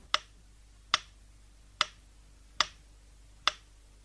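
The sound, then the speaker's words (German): Slowly ticking metronome on the left stereo channel: five sharp, bright clicks at an even, unhurried pace, each decaying quickly over a faint low hum. “Zur Überprüfung der Seitenrichtigkeit Ihrer Anlage hören Sie jetzt links ein langsam schlagendes Metronom.”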